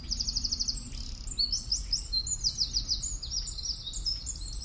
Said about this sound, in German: Das war der Zaunkönig. Einen der häufigsten und markantesten Sänger, ein Jahresvogel,